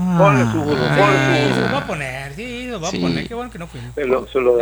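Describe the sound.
A donkey brays loudly in a long run of wavering, drawn-out honking cries that rise and fall, heard on their own.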